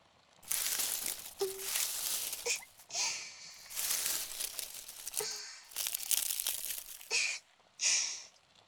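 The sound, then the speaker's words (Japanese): Aluminum foil being crumpled and crushed: dry, crackly crinkling in several long bursts with brief pauses between them, fairly loud and with no talk. “このアルミホイルというのは便利ですね。ただの銀紙かと思ったら火の中でも燃えないだなんて。”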